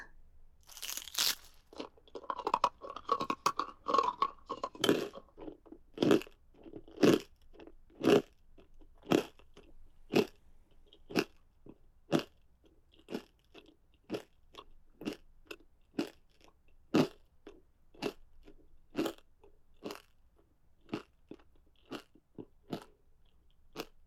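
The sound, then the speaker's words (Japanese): Crunching and chewing of foot bones, with a dense stretch of chewing at first. It is followed by a long run of sharp, evenly spaced crunches, many in all, heard alone without talk. “足の骨食べるの楽しいね。バリエーションが楽しめるよ。”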